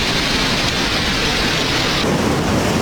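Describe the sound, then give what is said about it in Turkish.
A heavy downpour falls on Barbaros Avenue in Istanbul during flooding. It makes a loud, dense, unbroken roar of rain that shifts slightly in tone partway through. “Barbaros Caddesi her sağanak yağışta bu şekilde.”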